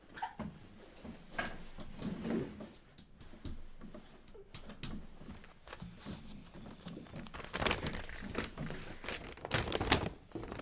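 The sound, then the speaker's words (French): Paper rustling and crinkling as a paper coastal inventory map is unfolded and handled, faint and irregular, with a few sharper crackles among soft, shifting rustles. “On va essayer de retrouver sur ma carte à moi que j'ai prise.”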